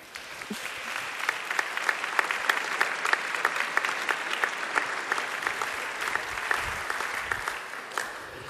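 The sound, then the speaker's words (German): Warm audience applause welcomes a pastor onto the stage at a church congress, steady, dense clapping that holds at an even level for the whole stretch without breaking. “Begrüßt mit mir hier ganz herzlich auf der Bühne mit einem warmen Applaus Pfarrer Dr. Thomas Schlegel.”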